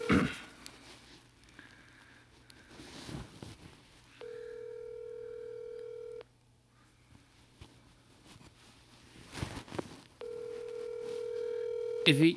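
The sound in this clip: A telephone call rings out: two long ringback tones, each lasting about two seconds, are separated by quieter stretches with faint incidental noise.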